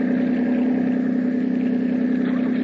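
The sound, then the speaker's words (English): Steady drone of a big motorboat engine, a loud, even mid-pitched hum over a low throb that holds level from start to end, with no voices. “There's a big motorboat coming this way. She'll miss us. Watch out for a wash. It'll rock us a bit.”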